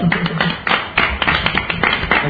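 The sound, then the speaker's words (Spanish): Applause from an audience, dense continuous clapping with irregular louder swells, fairly loud and steady across the whole stretch with no voices over it. “un gran aplauso”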